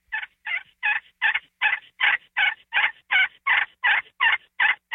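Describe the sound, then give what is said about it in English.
A turkey tree yelp call as a long, even series of short, clipped yelps, evenly spaced and similar in pitch and loudness from start to finish. “I start them with a very, very simple, and you've heard me do this, simple little tree yelp in the morning, that little real subtle”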